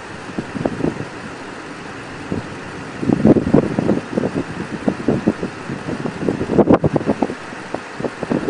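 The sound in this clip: Brisk wind blows outdoors beside a herd of horses with colts and buffets a handheld camera. Rough, low gusts flap and rumble, growing stronger and more frequent after the first few seconds.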